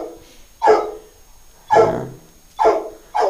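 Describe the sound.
Dog barking, a 12-year-old dog: four sharp, fairly loud barks at uneven intervals, with nothing else sounding between them.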